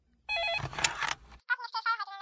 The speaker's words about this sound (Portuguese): O telefone não para. Ah, que bom. Olha aí, eu não disse?